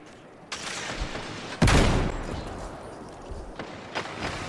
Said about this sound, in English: I'm getting bagged by a 120 hand cannon.